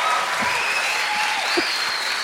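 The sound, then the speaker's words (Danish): Audience clapping at a live tabletop role-play game session, a dense, steady wash of many hands that holds at an even level for the whole two seconds with no voices breaking through. “Prøv at klap.”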